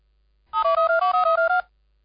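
A telephone rings as a radio host places a call: a quick burst of short electronic trilling pulses that alternate between two pitches. It is heard clearly alone, then silence.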